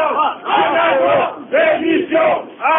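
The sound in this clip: Protest crowd chanting at a demonstration in Besançon in defence of public services, with archaeologists opposing privatisation: loud massed voices shouting in rhythmic, repeated bursts with short gaps between phrases.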